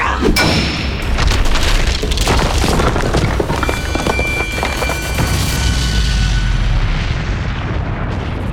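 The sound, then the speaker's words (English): Loud, sustained booming blasts with a deep rumbling roar as warriors explode into balls of brilliant blue light shooting into the sky, continuous and dense throughout, with a bright ringing shimmer layered over the low thunder. “The warriors explode into balls of brilliant blue light that shoot off into the sky.”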